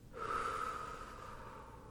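A soft, slow breath out forms a single airy exhale lasting nearly two seconds. It carries a faint whistly tone, is quiet and is heard alone.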